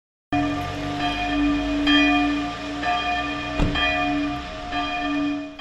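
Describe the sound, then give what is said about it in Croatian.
Church bells ring out in Marktl, a small town in Germany, marking news of a pope's death. Sustained, resonant bell tones sound continuously, with a few fresh strikes renewing the ringing at intervals. No voices are heard. “crkvena zvona su se oglasila u Marktlu u Njemačkoj, mjestu rođenja pape Benedikta nakon vijesti o njegovoj smrti.”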